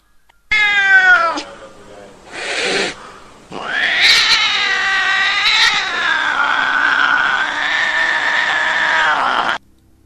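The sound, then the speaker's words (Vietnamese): Cats yowling in a forest: a short wavering meow, a brief noisy burst, then one long, loud, drawn-out caterwaul that wavers in pitch for several seconds before stopping abruptly. “Lúc này khắp khu rừng vang vọng tiếng mèo kêu.”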